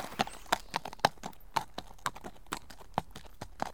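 A horse trots out of a courtyard, its hooves clip-clopping in a steady, brisk rhythm of many sharp, hollow hits, heard alone without voices.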